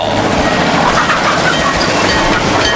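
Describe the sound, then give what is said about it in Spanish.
Train sound effect of rolling railway cars used to open a football match, a dense continuous rumble and rattle with clickety-clack, loud and steady throughout. “Choque de trenes en el Garden. Ahí los trenitos ya están llegando.”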